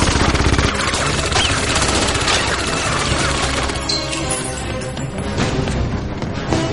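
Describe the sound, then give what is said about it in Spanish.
Gunfire in the James Bond film Casino Royale (2006) as a bodyguard fires at Bond from a window. Dense, loud clatter and crashing run without a break, with rapid sharp impacts near the start. “Un guardaespaldas dispara a Bond desde una ventana.”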